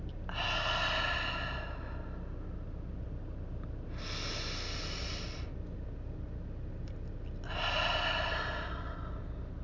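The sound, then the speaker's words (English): Someone takes deep breaths in through the nose and out through the mouth. Three long, airy, quiet breath sounds are separated by pauses. “take a deep breath in through your nose and out through your mouth”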